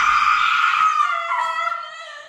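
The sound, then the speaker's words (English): A person screaming: one long, high-pitched cry that holds for about two seconds, slowly sinking in pitch as it fades, heard alone. “why are you screaming?”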